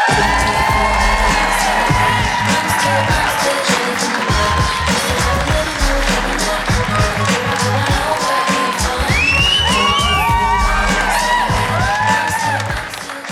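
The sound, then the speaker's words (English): Studio audience applauding and cheering a comedian guest's entrance, loud sustained clapping mixed with shouts and high whoops that carry on steadily throughout. “please, can you put your hands together and give a very warm welcome to the lovely Jen Brister.”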